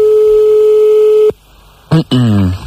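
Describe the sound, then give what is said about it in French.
A steady telephone line tone sounds for just over a second on a call placed to a couple somewhere in France, then cuts off abruptly; after a short silence a voice answers. “nous allons appeler des messieurs et madame Lacrotte”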